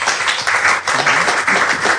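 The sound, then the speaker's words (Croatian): Audience applause greets an 82-year-old retired poet on a talk show, a brief, loud burst of many hands clapping with slight pulsing surges. “pa vas molim da je pozdravite jednim pljeskom.”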